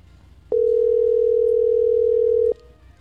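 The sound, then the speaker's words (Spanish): A telephone ringback tone on an unanswered call: one steady, even, mid-pitched tone lasting about two seconds, heard alone over faint background hiss. “Estoy llamando al alcalde de la estancia y no me contesta.”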